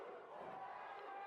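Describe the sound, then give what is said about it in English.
An ECW wrestling crowd from 1995 chants the wrestler Sabu's name, heard as a faint, steady wash of many voices with no distinct individual words. “Oh, the crowd's chanting Sabu, Sabu, Sabu.”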